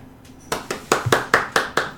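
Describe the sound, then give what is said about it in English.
Slow, even hand clapping for the end of a song in a tabletop fantasy role-play session: several sharp, separate claps at a steady rhythm after a brief quiet start. “The other two, while seeming appreciative, I'm not the clapping sort. The three humans, though, do definitely clap.”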